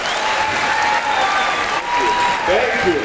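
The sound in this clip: Audience applause welcoming a guest speaker, a dense, steady wash of clapping that stays loud and even throughout.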